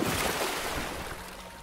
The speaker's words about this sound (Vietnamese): Mấy tiếng phát ra liên tiếp như ngoài ao có người từ trên bờ nhảy xuống.